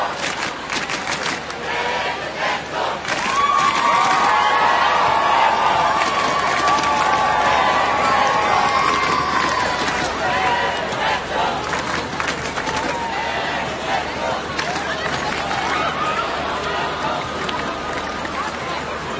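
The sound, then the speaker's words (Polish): Young people in a large crowd cheer and shout greetings to Pope Benedict XVI. The roar of voices runs continuously, swelling louder after the first few seconds and staying strong throughout. “a my teraz słyszymy, jak młodzi pozdrawiają Ojca Świętego.”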